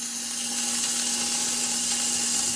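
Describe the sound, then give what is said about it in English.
A wooden rib scrapes against a spinning pottery wheel head while a pot's bottom is trimmed, making a continuous faint, hissy scraping. A steady low hum runs underneath at an even level throughout. “I'm going to trim the bottom now, so you're going to hear this like wooden rib kind of scrape against the wheel head.”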